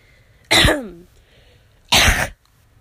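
Throat clearing and coughing to clear phlegm: two harsh, loud bursts separated by a pause, the first with a rough voiced rasp trailing off, the second a shorter forceful hack, with no talking.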